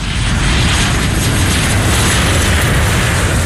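An airplane engine roars loudly in flight, a dense, constant drone that holds steady throughout with no talk.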